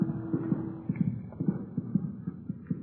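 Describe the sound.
Three men's footsteps climb an apartment building's stairs to the third floor, dull, faint thumps falling in a steady walking rhythm throughout.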